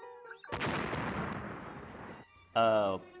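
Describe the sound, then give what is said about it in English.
Cartoon explosion effect as a hamster blows up: a broad, noisy blast that sustains for nearly two seconds before cutting off, followed by a short burst of voice. “Why did that hamster just explode? He's from Neptune.”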